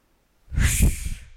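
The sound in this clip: A deep breath taken during a fitness exercise, with the arms raised and then lowered while bending the knees: a single loud, airy rush of breath lasting about a second, heard alone.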